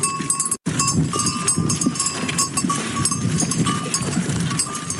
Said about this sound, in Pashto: جمعه خان د اورزګان ولایت مرکز ترینکوټ ښار اړوند د سرچخلو په سیمه کې په نوې بڼه د غویانو فارم جوړ کړی دی چې اوس مهال په پالنه بوخت دی.